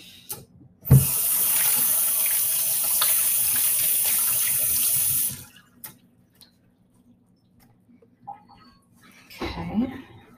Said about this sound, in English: I'm going to rinse my hands.